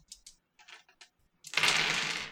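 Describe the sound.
Seven eight-sided dice are rolled, giving a dense clattering burst that rattles for about a second after a few faint clicks of handling.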